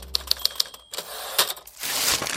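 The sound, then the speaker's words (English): Typewriter keys strike paper while leases are typed: a quick, even run of four crisp clicks, then a few more scattered keystrokes, all fairly faint. “I can't seem to type these leases anymore.”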